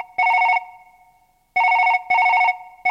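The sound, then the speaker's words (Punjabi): A telephone rings just before a call is answered, giving a loud, high electronic trill in short bursts: one burst, a pause, then two bursts close together. “ਮੈਂ ਮੱਦੀ ਨੂੰ phone ਕਰਨਾ।”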